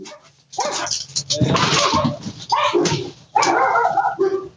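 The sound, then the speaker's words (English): A dog barks in a few loud, ragged bursts with short pauses between them, some barks breaking into higher yips and whines. “So normally when Winnie barks, it sounds a lot like this.”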